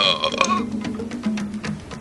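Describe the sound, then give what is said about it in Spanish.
A deep, rough belch from a man stretches over about two seconds. It comes as a few low, gurgling pulses at moderate to faint loudness, with no talking. “Y eructó, con hedor de sangre, cercano, allá en la profundidad”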